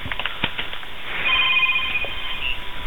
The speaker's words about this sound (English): Somebody's phone's ringing.